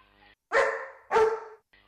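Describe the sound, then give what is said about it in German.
Two drawn-out barks from a sad, old dog. Each is a loud, tonal bow-wow lasting about half a second, with a short pause between them. “Der Esel sieht einen Hund.”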